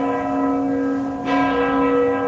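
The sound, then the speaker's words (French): Church bells ring in Krakow, a sustained peal of rich, layered overtones that hangs steadily, with a fresh strike partway through. The bells are heard alone, with no voices. “Les cloches, un pigeon. On est bien à Cracovie.”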